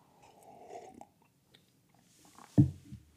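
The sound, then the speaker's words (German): A big sip of tea: a short, wet gulping mouth sound stands out near the end after a quiet stretch with faint rustling. “So, darauf musste ich jetzt erstmal einen großen Schluck vom Tee nehmen.”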